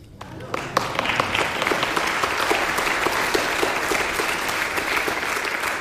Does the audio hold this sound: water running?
no